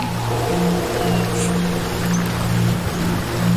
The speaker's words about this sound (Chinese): 这怎么这么大风啊？ 是啊， 这风天你们敢让我们划船？